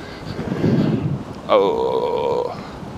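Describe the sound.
Wind blows into the microphone in a low, rumbling buffeting roar for the first half, then a steady harmonic, voice-like tone takes over for the remainder.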